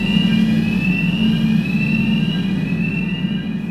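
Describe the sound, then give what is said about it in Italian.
Particle accelerator starting up, a loud, steady mechanical hum with a low drone and a thin high whine that hold constant throughout. “E questi sono i rumori che si sentono quando l'acceleratore sta cominciando.”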